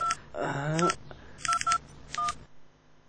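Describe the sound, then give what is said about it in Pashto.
A telephone is dialed: a few short, faint touch-tone beeps sound in quick succession, separated by brief gaps. “ته صبر زه کور ته یو زنګ ووهم زنګ ووهه”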